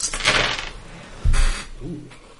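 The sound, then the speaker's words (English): Dice clatter across a table during a tabletop role-playing game, with extra dice rolled for fire damage: a few bright, rattling bursts of clicks over low thumps. “this time I'll remember to roll the extra two dice for fire damage”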